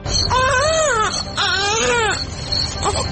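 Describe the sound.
A baby, a mother's little son, cries in a radio drama: two long, loud wailing cries with wavering pitch, then a brief, weaker whimper at the end.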